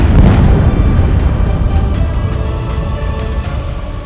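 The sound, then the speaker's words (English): A bomb explosion sound effect gives a loud, deep, rumbling roar that holds steady and then gradually fades over about four seconds, with no voices. “Let's drop some bombs!”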